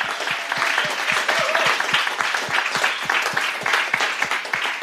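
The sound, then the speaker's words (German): Applause from an audience of about 500 people at the close of an event on obesity: a dense, loud, continuous patter of many hands clapping throughout, with no single voice standing out. “Und jetzt nochmal einen Riesenapplaus für das Thema Adipositas. 500 Leute klingen so.”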